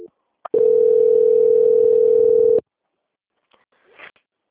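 A steady telephone tone plays during a call transfer: one clear, unbroken tone lasts about two seconds, starts after a faint click, and is followed by a few soft, faint noises.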